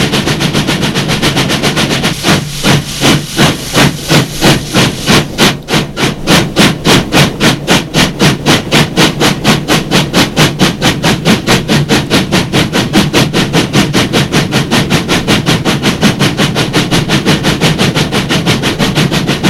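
A passenger train moving along the tracks, a loud, steady, fast rhythmic clatter that runs without a break for the whole stretch, with no talk.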